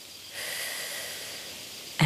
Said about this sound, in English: Feel how your belly moves as you breathe in. And then slowly let the air go as you breathe out. Breathe in.